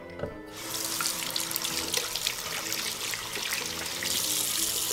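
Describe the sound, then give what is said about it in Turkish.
Water running from a tap into a sink as children wash their hands before a meal. A steady rushing stream starts after a brief quiet moment and carries on, growing slightly louder toward the end. “Zilin sesini duyan çocuklar önce ellerini yıkamışlar.”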